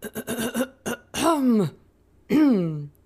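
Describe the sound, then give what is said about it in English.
Someone clears their throat before a prayer with a quick run of short, rough rasps, then two longer voiced 'ahem' sounds that each slide down in pitch, with a pause between them. “Maybe he stood tall and cleared his throat before he prayed.”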